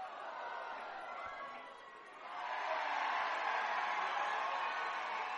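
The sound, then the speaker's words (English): Stadium crowd noise at a baseball game as fans react to a ball lifted toward the rooftop. The broad, faint roar swells louder about halfway through and stays raised to the end. “The crowd reacted as if a guy or girl made a catch.”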